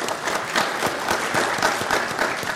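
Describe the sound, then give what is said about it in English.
Audience applause breaks out at a CF United event to honour team members and bloggers: dense, steady clapping from many hands, loud and even throughout without a pause. “Who here is in Team CF United or has blogged about it? Let's give those folks a hand.”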